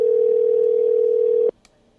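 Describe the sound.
Ringing tone of an unanswered telephone call: one steady, mid-pitched electronic tone holds loudly for about a second and a half, then cuts off abruptly, leaving near silence.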